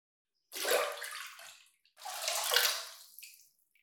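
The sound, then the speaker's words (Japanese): Feet dipped into a basin of hot water: two soft sloshing splashes, each swelling quickly and then trickling away, with a brief quiet gap between them. “こちらのお湯が入った器に足を入れていただきます。まずはお湯加減を調整しますので、ご自身で足先を少しだけ入れてみていただけますか。”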